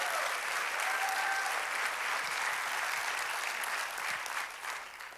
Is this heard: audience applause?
yes